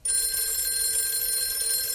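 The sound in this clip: A telephone bell rings continuously after a quick onset, a bright metallic ring held steady and loud throughout.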